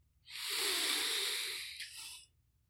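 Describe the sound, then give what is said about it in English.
A single deep breath drawn in slowly during guided breathing into the belly: a steady, breathy hiss lasting about two seconds, heard alone with no talk over it. “Big deep breath in all the way down into the belly, into the pelvic bowl, and up to the shoulder girdle with me.”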